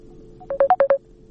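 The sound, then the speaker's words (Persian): Telephone keypad tones as a call connects on a radio phone-in line: a faint brief tone, then five quick, loud beeps of differing pitch in close succession, followed by quiet line noise. “خب جناب مایار، باز هم یک تماس است، با معذرت میگیریم تماس را.”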